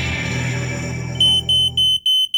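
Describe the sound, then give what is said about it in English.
A smoke alarm gives a series of loud, high-pitched electronic beeps in an even, rapid rhythm, about seven short pulses, after a duller low-toned sound cuts off. “Nobody knows smoke alarms like us.”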